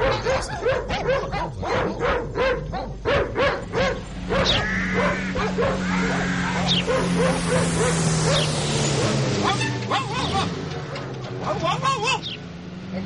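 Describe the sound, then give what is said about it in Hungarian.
Several dogs barking in a yard, with many rapid barks, yips and whimpers overlapping in an uneven, busy rhythm, while a man's voice talks over them. “Mit ugattok itt az udvarban?”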